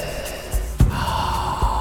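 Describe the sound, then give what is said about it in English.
A deep breath drawn in during a guided slow calming breathing exercise, a soft airy inhale with a brief sharper puff near the middle. “Spreading your wings as you breathe in”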